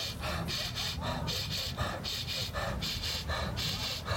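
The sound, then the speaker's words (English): Quick, rhythmic breathing from a fast breathing exercise: double inhales through the nose and sighing exhales through the mouth, repeated many times in a steady, panting pattern with no pause. “we take double inhales in through the nose. And just sigh out through the mouth, letting it fall out. And this time really fast.”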